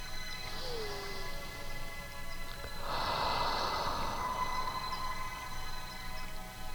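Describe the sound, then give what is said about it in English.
A slow, deep breath is drawn in through the nose and let out through the mouth during a guided relaxation exercise. The soft, airy breath sounds ride over a steady, sustained humming tone. “close your eyes and take a deep breath through your nose and exhale through your mouth.”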